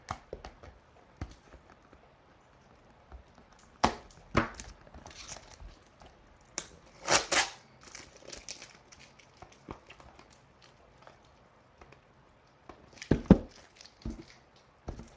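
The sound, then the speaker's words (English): Packing tape is peeled off a cardboard box thickly wrapped in tape, giving intermittent crackling, ripping bursts of varying length separated by quieter gaps and small rustles. “Watch, I'll get through all this tape and he'll have sent me a box of tape.”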